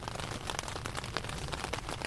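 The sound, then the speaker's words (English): Rain falls gently on a tent in the early morning, making a faint, steady hiss scattered with soft individual drop taps. “It's early morning, and rain is falling gently outside my tent.”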